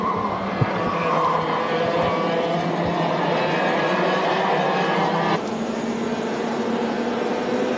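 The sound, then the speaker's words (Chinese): Race car engines roar continuously as cars drive onto the track for a masters-class qualifying session. The drone stays loud and steady, and its tone shifts slightly partway through. No one speaks. “赛道开放之后呢，车手们是第一时间驶上赛道来进行排位赛的一个争夺。”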